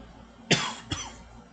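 Two coughs come from a tickle in the throat: a sharp, forceful first burst, then a shorter, lighter second cough, both loud and alone.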